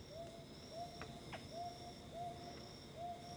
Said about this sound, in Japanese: これは？ アオバズクですか。 そうです、そうです